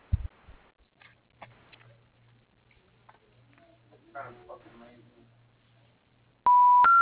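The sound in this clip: Telephone keypad tones entering letters at an automated phone menu: a brief, loud pair of stepped electronic tones at the very end, after a stretch of faint, scattered low sounds.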